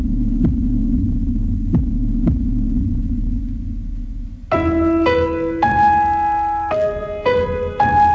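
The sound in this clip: A heartbeat sound effect: a few low, throbbing thumps pulse over a deep steady hum, then sustained electronic tones take over for the second half.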